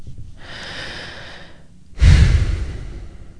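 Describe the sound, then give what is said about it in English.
One deep human breath: a slow, airy inhale followed after a short pause by a louder, rougher exhale, with no talking. “I want you to take a deep breath and notice what you are experiencing right in this”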